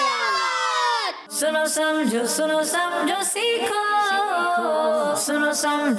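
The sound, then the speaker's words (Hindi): A crowd chants the slogan Dawat-e-Islami in unison after one voice leads with a falling call; the chanting comes as loud, rhythmic bursts of many voices. “और नारा लगाएंगे मिलके दावत इस्लामी”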